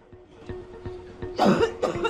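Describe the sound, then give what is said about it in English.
A tennis player coughs into a towel during a warm-up, bent double. There are two harsh, muffled coughs in quick succession, louder than the quiet background before them. “Bent double, she coughs into it.”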